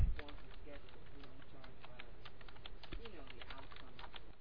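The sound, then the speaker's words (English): Typing on a computer keyboard: many soft, rapid key clicks in an uneven rhythm, faint and steady over a low background hum. “I'll type that in the text chat.”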